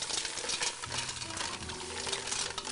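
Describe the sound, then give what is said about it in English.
Mussels being stirred in a pot of sauce make a continuous, busy scraping and clatter of shells over a sizzling background, lasting about three seconds with no voices. “So we're going to throw in all our mussels here and give them a good stir.”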